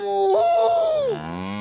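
A bull moos in one long, loud bellow lasting just over a second. Its tone steps up early, holds steady, then slides down near the end, leaving a lower droning tone.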